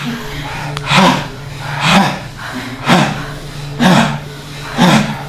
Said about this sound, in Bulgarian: Ще го подишаме и него пак. За малко. Давай!